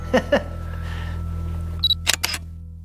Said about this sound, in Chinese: 我拍照。